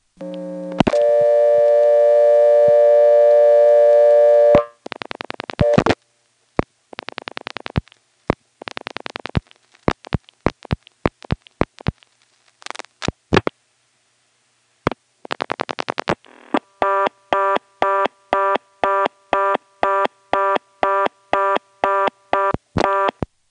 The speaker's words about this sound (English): This time, when I get onto the trunk, I'm going to dial an 8, which is blocked. Thanks to this method of dialing onto the trunk directly, we'll actually get to hear it sliding over to the 11th terminal.